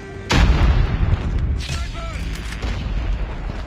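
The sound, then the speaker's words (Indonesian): Airstrike explosions in the mobile shooter game Call of Duty Mobile: a sudden loud blast hits early, followed by a heavy, continuous rumbling roar of further detonations that stays strong throughout. “Friendly airstrike incoming.”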